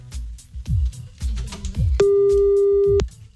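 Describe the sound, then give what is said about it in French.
Ringback tone of a telephone call placed to Canada: one steady, clear tone lasting about a second, sounding over a busier mix of low background sounds before and after. “On appelle au Canada hein, pour avoir plus de chances que ça décroche.”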